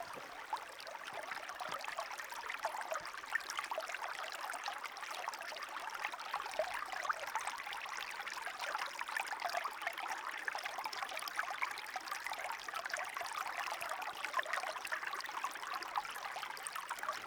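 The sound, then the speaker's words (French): Cold water flows in a stream with a steady, bright rushing and trickling, a continuous crisp wash that stays even and fairly quiet throughout, with no voices. “Quand l'eau est froide comme ça, elle est vraiment d'un bruit cristallin.”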